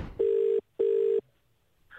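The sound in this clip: A telephone rings twice before a voicemail greeting: two steady, mid-pitched electronic tone bursts of about half a second each, separated by a brief silence, then the line falls quiet.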